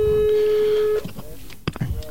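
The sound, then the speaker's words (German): An electronic telephone ring: a single steady mid-pitched tone holds for about a second and then cuts off, followed by faint voice and background noise. “Oh, das Telefon klingelt schon.”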